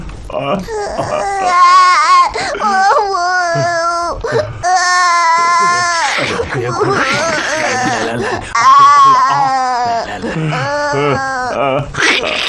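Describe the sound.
An old man cries and wails loudly during a Buddhist rite for the dead, with continuous quavering, sobbing voiced cries that rise and fall throughout.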